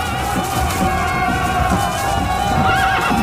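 Horses neigh in a mounted confrontation scene, their whinnies rising loudly over a steady clip-clop of hooves that runs throughout.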